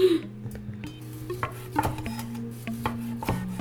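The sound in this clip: Cutlery clinks and scrapes on a plate as someone eats a koji-crusted pork chop: scattered sharp taps and short rasps, fairly faint, with no talk.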